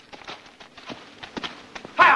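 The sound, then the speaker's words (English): A horse trots in a neat circle on a six-foot lunge rope, urged on with a short crop. Its hooves give a steady, rhythmic series of light clip-clops, ending in a louder burst of noise. “Holding a 6-foot lunge rope, he wags a short crop several feet from Pie's powerful hindquarters and prods him into a trot. Pie steps lightly in a neat circle.”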